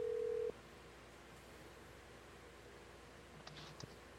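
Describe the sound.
Telephone dialing out for a call: a steady tone that cuts off after half a second, then a quiet stretch and a few faint short beeps near the end.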